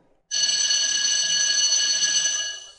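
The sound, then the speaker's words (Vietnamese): An electric school bell at a high school signals the end of class with one continuous, shrill, metallic ring lasting about two and a half seconds, starting abruptly and tapering slightly at the end. “Tiếng chuông báo hết giờ bỗng vang lên giòn giã, vang vọng khắp khuôn viên trường.”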